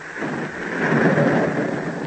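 Heavy rain with thunder, a dense, continuous hiss of downpour with a low rumble that swells midway and stays loud throughout.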